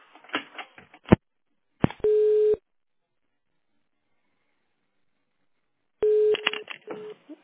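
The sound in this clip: Steady mid-pitched telephone line tones play in a few separate beeps while a call is transferred to an accounting department. Short clicks and muffled fragments come between them, with a long silence in the middle.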